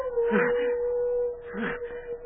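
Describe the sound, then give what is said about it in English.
Wolves howl in one long, steady, sustained note, with two rougher, broken cries rising over it in turn. “That howl. It's wolves.”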